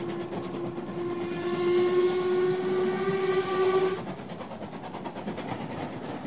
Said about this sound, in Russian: Всю ночь поезд шел по запланированному маршруту, проезжая мимо необозримых равнин и необъятных джунглей.